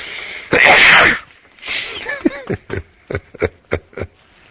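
One loud, forceful sneeze bursts out, followed by a series of short, breathy chuckles.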